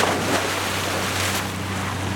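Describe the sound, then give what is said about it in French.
A motorboat runs over waves, giving a steady low engine hum under a broad wash of splashing water and wind rush at an even, loud level. “Je n'ai jamais su dire non à un bateau à moteur.”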